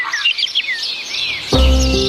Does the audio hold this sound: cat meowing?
no